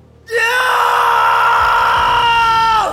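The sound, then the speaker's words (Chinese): A furious, roaring scream bursts out abruptly and holds for about two and a half seconds. It is loud and harsh, with a steady pitch, and cuts off at the end. “一声咆哮般的怒吼随着瀚海乾坤罩的涌入从唐三口中爆发开来”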